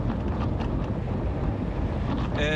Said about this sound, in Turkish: Ya arkadaş, hızlı gitmesek mi acaba ya? Çok sıcak esiyor ya.